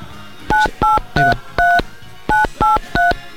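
Touch-tone keypad beeps sound as a phone number is dialed on a telephone: eight clear two-tone beeps, four in a steady run, a short pause, then four more. The beeps are loud, with no talk.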